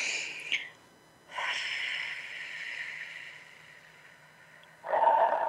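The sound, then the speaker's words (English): Slow, deep breathing during a seated relaxation exercise, in through the nose and out through the mouth: a few long, airy, breathy rushes separated by quiet pauses. “Take a big breath and big belly breath, you know, expanding that belly. Breathe in through the nose, out through the mouth.”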